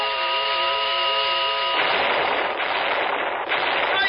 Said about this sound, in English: Use your last grenade and the laser pistol to defend yourself.